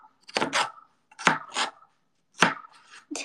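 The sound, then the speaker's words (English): A knife chops through a cucumber with tough skin, cutting it into rectangles: a few sharp, crisp cuts, mostly in quick pairs separated by short pauses, each ending in a clack on the board. “And then I will chop these into rectangles.”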